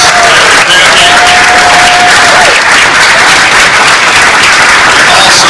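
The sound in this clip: Loud, sustained audience applause and crowd noise at a Special Olympics 50th anniversary event, dense clapping that stays at full strength throughout.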